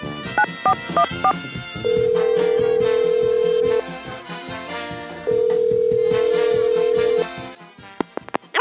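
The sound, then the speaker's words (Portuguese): Telephone number being dialed: a quick series of short keypad tones, then two long, steady ringing tones of about two seconds each, separated by a pause, over continuous background sound. “Vamos lá, discando aqui o número.”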